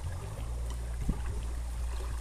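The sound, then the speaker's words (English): Water from a stream flows outdoors in a faint, steady rushing wash with a low rumble underneath, and no voices. “at least you're listening to the water streams and stuff like that as well, you know? Enjoying Mother Nature”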